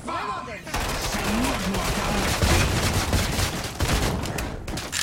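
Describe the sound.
Gunfire fills a Call of Duty match, dense and continuous with bursts of shots and blasts layered into a loud, unbroken barrage; voices are faintly mixed in near the start.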